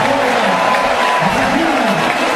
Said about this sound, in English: Reynolds gets a nice round of applause from the faithful that are here.